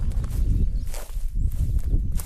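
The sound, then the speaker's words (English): Footsteps walk steadily down a path through bog, a continuous run of many soft, dull steps with a faint rustle mixed in. “We're walking down a path between all this bog”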